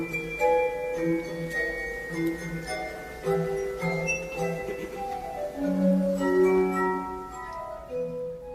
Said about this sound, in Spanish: La glass armónica, la crystal harp o el arpa de cristal, no tiene nada que ver con la armónica de lengüeta libre que comúnmente conocemos